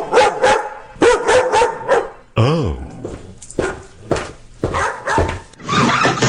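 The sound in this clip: A dog barks in a series of short, sharp woofs with a couple of higher yips and whimpering yelps between them, loud and irregular in rhythm, with a brief voiced exclamation from a person.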